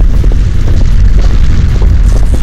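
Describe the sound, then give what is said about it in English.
Avalanche air blast, a violent blast of wind driven by a snow slide: a loud, unbroken low rumble packed with deep booming thumps from start to finish. “A blast of wind scoops McCrae up and hurls him into Snowshed 17.”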